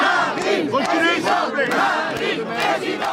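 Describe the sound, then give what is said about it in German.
A crowd of political supporters cheers and chants at a campaign rally in the market square of a small French town, many voices merging into a loud, sustained roar. “Wie auf dem Marktplatz des Städtchens La Flèche versammelten Anhänger von Marine Le Pen bereiten ihr den gewünschten Empfang.”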